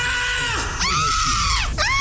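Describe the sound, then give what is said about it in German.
People scream with joy in loud, high-pitched shrieks. There are a few overlapping cries, each one sliding and bending in pitch, with no talking. “Und dann hört ihr diese Schreie.”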